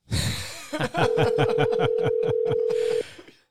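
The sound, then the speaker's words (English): A telephone tone sounds while a call is placed, one steady, unwavering pitch held for about two seconds, with other shorter sounds around it. “Oh, we're calling him in? Let's try this. Let's see how this goes.”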